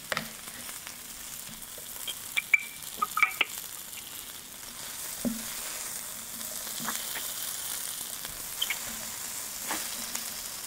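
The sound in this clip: A steak mixture for cheesesteak sizzles in a small personal electric frying pan, giving a steady, fairly faint frying hiss scattered with many small crackles and pops, with no talking over it.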